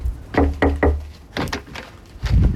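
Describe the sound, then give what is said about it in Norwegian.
Knocking on a door early in the morning: a quick group of three firm wooden raps, a short pause, then a couple more knocks and a final louder bump. “Og da måtte jeg altså tidlig en morgen banke på igjen til Siv”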